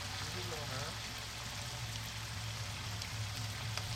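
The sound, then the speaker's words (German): Dense, steady sizzling hiss of 30 kg of onions frying in a huge 250-litre pot about two metres across, with a faint murmur of voices briefly underneath. “Ich stehe hier am Rande eines riesengroßen Topfes, der sicherlich 2 Meter Durchmesser hat und ein Fassungsvermögen von rund 250 Litern. Hier werden gerade 30 Kilogramm Zwiebeln angebraten für das Mittagessen.”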